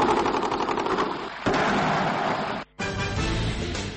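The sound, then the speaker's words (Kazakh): Prolonged gunfire from various weapons in Ashgabat, Turkmenistan: dense, loud, continuous crackling and popping bursts that run almost without pause, broken only by one brief silence near the end. “Сонымен өткен аптаның сенбісі күні Түркменстанның астанасы Ашхабадта ұзақ уақыт бойы түрлі қарудың атысы естіліп тұрды.”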